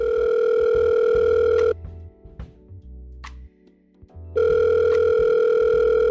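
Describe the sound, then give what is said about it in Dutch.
Steady, loud telephone line tone while a call is being placed. It breaks off for about two and a half seconds with faint clicks, then resumes unchanged. “wij gaan even bellen met Lieve van Kaas de Podcast om hem wat vragen te stellen”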